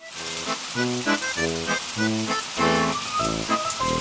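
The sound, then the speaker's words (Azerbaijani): Heavy rain pours down as a dense, steady hiss of drops striking a surface, with a melodic music track playing over it throughout. “Birdən möhkəm yağış başladı.”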